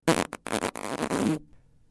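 Flatulence noises, a quick run of sputtering, buzzy bursts that fill about a second and a half before cutting off into silence.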